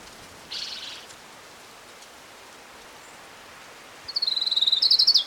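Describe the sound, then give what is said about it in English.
Song of an orange-crowned warbler: a rapid, high-pitched trill of many quick notes near the end, over steady hissing background noise. “Here's Orange Crown Warbler number 5.”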